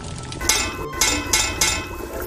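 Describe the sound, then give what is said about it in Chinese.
Bright metallic clinks from knocking on the edge of a cooking pot of sour fish soup: a few sharp strikes in quick succession over a steady, hissing background. “您最后敲两下这个锅边是什么意思？”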